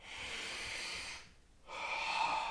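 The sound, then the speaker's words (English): A very deep, loud breath is taken close into a microphone: an airy, hissing rush of air in two long phases split by a short quieter pause, with nobody speaking. “I'm sure that's very, very audible in the microphone. Yeah. I just basically took a very deep breath.”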